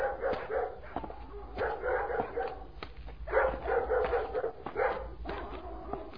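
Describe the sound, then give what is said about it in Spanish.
Dogs bark and yip in many overlapping bursts, with a few whimpers, over a steady low rumble. The barking stays moderately loud throughout, near a village at the edge of a dry, cracked plain. “se oye el ladrar de los perros.”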